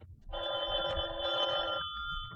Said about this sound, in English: at 11:30, I was just about to turn in when the phone rang.